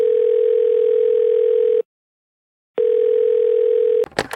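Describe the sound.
Ringing tone of an outgoing telephone call, two long, steady mid-pitched tones separated by a silent pause, followed by a sharp burst of noise as the line connects.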